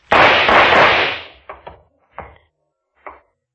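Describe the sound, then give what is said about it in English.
Gunshots ring out: one loud, drawn-out blast, then four shorter, sharp cracks separated by brief silences. “What's going on there? What were those shots?”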